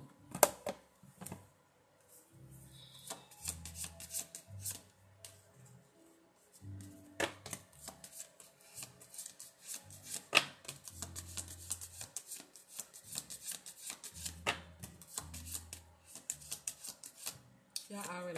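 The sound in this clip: A deck of cards is shuffled by hand ahead of a card reading, producing soft, irregular bursts of riffling, flicking and tapping. The quiet gaps between bursts are filled by low murmuring tones.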